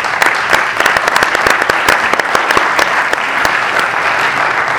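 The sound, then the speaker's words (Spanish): Audience applause at a live class session in Spanish: a loud, steady burst of many hands clapping, dense and sustained throughout with no voices over it. “Fuerte aplauso.”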